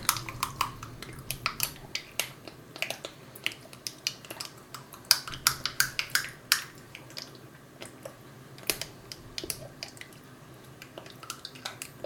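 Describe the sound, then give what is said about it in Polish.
A small spoon gently stirs tomato concentrate and oregano on a pizza Margherita base. Many faint, irregular wet clicks and soft squishes come one after another, with no voices. “Tak, dodam jeszcze troszeczkę oregano i powtórnie mieszam.”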